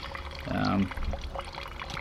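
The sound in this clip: Wine poured into a glass at a wine tasting: a short, steady pour lasting under a second, its gurgling tone rising as the glass fills, then quiet.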